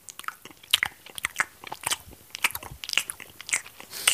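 Someone crunches and chews a hard ginger honey drop, a dense, irregular run of many sharp bright cracks and bites, heard alone at close, moderate loudness.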